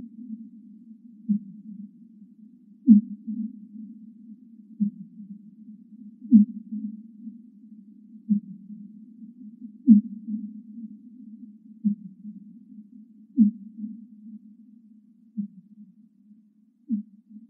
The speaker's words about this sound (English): Okay, let's listen to a fin whale call here.